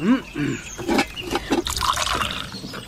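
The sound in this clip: Tea is poured into a cup, giving a soft, gurgling trickle of liquid with a few drips. People talk over the pouring.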